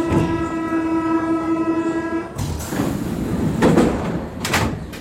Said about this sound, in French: Igor me laisse à l'entrée du métro et je m'engouffre dans ce caisson bruyant. Dans les couloirs, la résonance s'accroît.